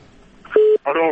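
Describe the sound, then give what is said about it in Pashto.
A short, steady telephone-line beep at mid pitch sounds as a listener's call is cut off, followed after a brief gap by a burst of voice-like sound. “متاسفانه تماس از شنونده مو قطع شد.”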